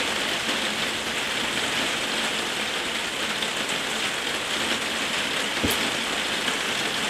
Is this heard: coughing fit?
no